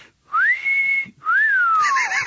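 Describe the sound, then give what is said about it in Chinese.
A man whistles two long, loud notes with a short gap between them. The first glides upward and holds steady; the second rises briefly, then slides gradually downward. “他吹了声口哨”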